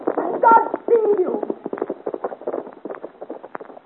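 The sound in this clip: Horse hooves of a passing rider clip-clop in a steady run of many sharp strikes, following a brief burst of voices at the start.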